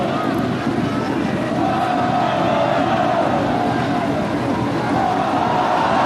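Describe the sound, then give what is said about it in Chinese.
Kunming home football fans cheering in the stadium, a dense, continuous crowd roar at steady loudness from start to finish. “现场昆明队的球迷依然在为自己喜爱的主队去加油助威啊。”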